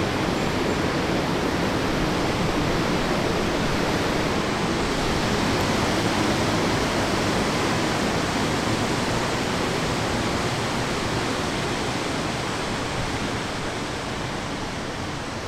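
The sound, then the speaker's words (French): Steady, broad roar of water rushing over spillway number 2, carrying surplus canal water into the St. Lawrence River, a dense, unbroken wash of sound holding level throughout. “Ce qu'on vient d'entendre, c'est le déversoir numéro 2 qui amène un surplus d'eau du canal vers le fleuve Saint-Laurent”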